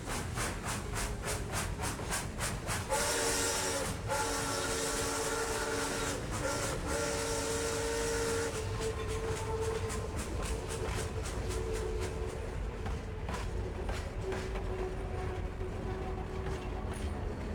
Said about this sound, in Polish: miasto kolejarzy, to oczywiście najlepiej dojechać tam pociągiem. W drodze warto wytężyć wyobraźnię i przenieść się do przeszłości, do złotego okresu kolei, do wieku XIX. Ruszamy.